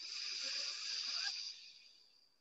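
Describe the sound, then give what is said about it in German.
A slow inhalation through the right nostril: a soft, breathy hiss that holds steady for over a second, then thins and fades out, with no talk. “Dann einmal die Augen schließen, rechts wieder einatmen”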